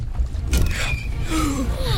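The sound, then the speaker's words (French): Roman liburnian warships pitching on a rough sea: a steady rush of water and wind, a sudden splashing burst midway, and drawn-out creaking tones that slide up and down in pitch. “Les flots sont agités et ça tangue à bord des liburnes.”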